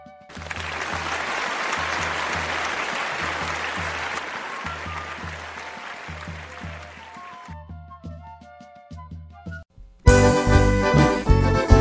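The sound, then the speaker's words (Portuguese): Audience applause welcoming a performer onto the stage at a poetry event, dense and sustained, with a rhythmic low beat pulsing beneath it as it fades, then loud music bursts in near the end. “vamos aplaudir com muita alegria e muita alegria mesmo a Kátia aqui no palco do Ressaca Poética. Seja bem-vinda, Kátia.”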